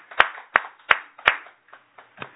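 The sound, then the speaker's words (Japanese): An audience at a Konko church claps to celebrate a member's 33rd birthday. Four sharp, evenly spaced hand claps ring out, followed by three fainter, sparser ones. “今日は赤澤公さんが満33歳を迎えられましたので、本人は昨日から旅行に行かれたんですが、拍手でお祝いです。”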